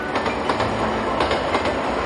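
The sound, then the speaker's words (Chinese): A train pulls out of Tongliao station, its steady rumble carrying a faint clickety-clack of wheels over rail joints, continuous and fairly loud with no voices. “列车驶离通辽站，窗外的每一寸土地都留下了时代变迁的烙印。”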